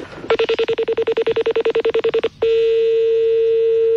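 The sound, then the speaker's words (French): A telephone sounds as a number is dialed to call a colleague. Many rapid, identical beeps come in an even rhythm, then stop briefly and give way to a steady, unbroken tone. “on va rappeler votre collègue, je vais l'appeler”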